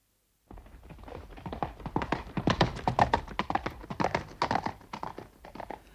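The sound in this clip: Horse hooves clip-clop steadily as a priest rides along a road. The quick, even hoofbeats begin after a moment of silence and continue without a pause, loud and alone.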